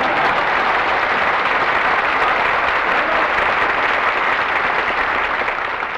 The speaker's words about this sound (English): You might as well get your reception. Not too loud, folks.